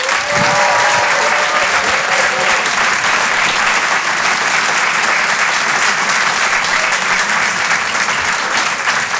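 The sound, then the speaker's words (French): A comedy club audience applauds a comedian with loud, dense, continuous clapping that holds steady for the whole stretch without a break. “On peut l'applaudir très très fort lui aussi, Paco Pérez sur Rire et Chanson.”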